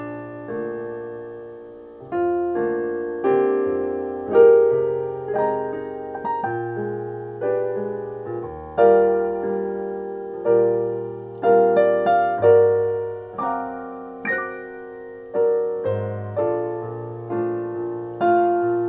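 A fast jazz standard recast as a slow ballad at around 80 BPM: unhurried chords and melody notes, each struck and left to decay, rise and fall in gentle phrases with no voices.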